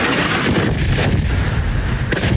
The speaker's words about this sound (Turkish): Patlama sesleri dört bir yandan yükseldi.